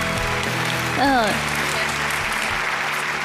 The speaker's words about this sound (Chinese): 接下来让我们掌声请上今天做客养生堂的另外一位专家，掌声欢迎来自首都医科大学附属北京佑安医院肝病中心三科的主任张晶张主任。